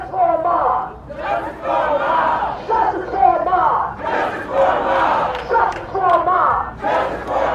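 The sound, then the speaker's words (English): A large crowd celebrates outside after a court verdict, with loud continuous cheering, whooping and shouting that surges and dips in waves. “Outside, it's much, much louder. People were celebrating. Many were waiting outside for the verdict, and they got what they wanted.”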